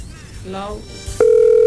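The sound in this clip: Ringing tone of an outgoing phone call: a voice speaks briefly, then a steady, loud single-pitch tone starts and holds unbroken to the end.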